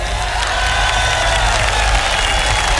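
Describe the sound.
Loud crowd applause welcoming bassist Billy Cox on stage at a Jimi Hendrix concert, a dense, steady roar of clapping that holds evenly throughout.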